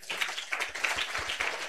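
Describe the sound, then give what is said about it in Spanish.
Joyful applause from a Spanish-speaking church audience praising Christ, a brisk, fairly even patter of hand claps, rather faint and with no talk over it. “Aplauso contento, alegre para Cristo.”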